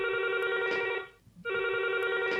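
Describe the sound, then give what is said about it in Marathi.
An electronic telephone ring signals an incoming call, with bright warbling bursts of ringing that stop for a short pause and then resume, sounding alone without any voices. “आणि घेऊया कार्यक्रमातील हा पहिला phone.”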